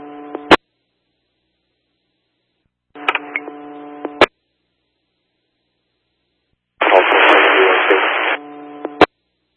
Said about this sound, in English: Just copying static.